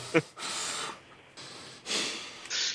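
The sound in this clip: Exaggerated heavy breathing from a person: a brief sharp snort-like burst, then several long, loud, raspy breaths that follow one another steadily.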